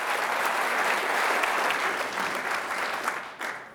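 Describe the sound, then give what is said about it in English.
Crowd applause greeting former foreign secretary Nirupama Rao at an evening event in Camden, Maine, with thick, steady clapping that thins slightly toward the end. “Let us give it up for Nirupama Rao. Madam Secretary, welcome.”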